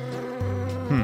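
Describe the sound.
Aggressive honeybees from a beekeeper's colony in Ramsey, New Jersey, swarm with a dense, steady buzzing drone whose pitch drops and then rises again over a brief moment.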